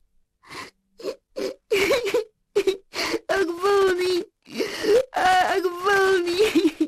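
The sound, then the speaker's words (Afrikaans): A voice performs a young prince lying on his bed, sobbing and wailing in sadness: broken sobs, gasps and long, quavering moans in a series of bursts. “O, foei tog, hy is so hartseer. Kyk hoe snik hy, sê die veekies.”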